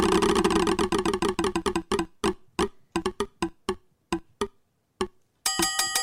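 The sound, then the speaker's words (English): A prize wheel spins with rapid clicking that steadily slows as the ticks spread farther apart and stop, followed by a brief, brighter burst of sound at the end. “Let's spin the wheel for Jenny.”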